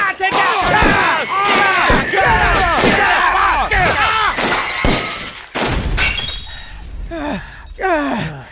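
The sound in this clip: Sharp, sound-effect bursts like gunfire fill a shootout scene in an audio drama, under a dense tangle of screaming and shouting voices, with crashing, shattering impacts throughout and a brief lull near the middle.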